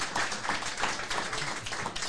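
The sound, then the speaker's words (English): A short round of clapping welcomes an interview guest, a football player, its fairly soft, busy patter of many hands continuing evenly throughout. “Let's welcome Josh with a big hand.”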